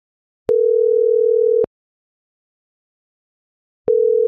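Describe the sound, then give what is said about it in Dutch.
A telephone line gives its tone while a call is being placed: a steady mid-pitched beep lasting about a second, a silent pause of about two seconds, then the same tone starting again. “Ik ga haar bellen.”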